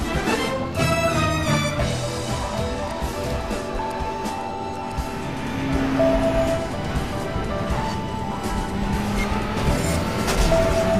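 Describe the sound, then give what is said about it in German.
Engine roar and squealing tires from a car drifting in a driving video game, a loud, continuous mix with the engine note rising and falling throughout. “hast du gelernt zu Powersliden? Driften. Es heißt Driften.”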